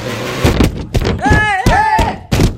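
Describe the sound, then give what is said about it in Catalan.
A cart carrying a small child crashes down a flight of stairs: several heavy, loud thuds and bangs land at uneven intervals, with rattling between the impacts. “l'Alexandra s'entrebanca i el carretó, amb el seu germà petit a sobre, surt disparat escales avall.”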